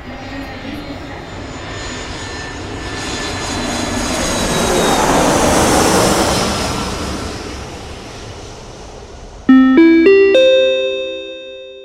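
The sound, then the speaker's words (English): Jet airplane takeoff sound effect: a loud engine roar swells to a peak and then eases away. A bright multi-note electronic chime rings out sharply near the end. “Su atención, por favor, pasajeros en el vuelo United 976 con destino a Los Ángeles. Comenzamos a volar en este momento.”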